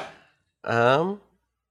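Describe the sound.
A single sneeze: a short breathy intake, then one loud, voiced burst lasting about half a second that fades quickly.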